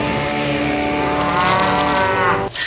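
A cow moos in one long, loud, unbroken call that holds steady for over two seconds and then cuts off abruptly near the end.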